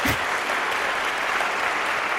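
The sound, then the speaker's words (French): Concert audience applauding a trio, a dense and steady wash of clapping that holds at an even level for the whole clip with no voices standing out. “Je vous propose de vous manifester à l'antenne en applaudissant par exemple.”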